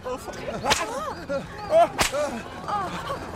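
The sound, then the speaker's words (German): Two sharp whip cracks snap out about a second apart, each a brief, loud burst cutting through overlapping raised voices. “Gib uns den Peitschentrick. Gib uns den Peitschentrick. Den Peitschentrick.”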